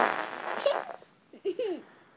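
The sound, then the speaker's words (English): Fart sound effects for a story about stinky beans in church: a long sputtering blast, then two shorter squeaky, tonal toots with bending pitch. “the whole church had to leave because it smelled so bad from the stinky bean farts from Soggy and Puppy”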